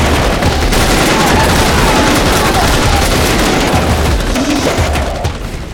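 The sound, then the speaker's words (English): Sustained volley of gunfire from a group shooting at charging attackers: dense, overlapping shots merge into one continuous, loud roar that holds steady and then tapers off at the very end. “I see movement. They're charging! Everybody, fire!”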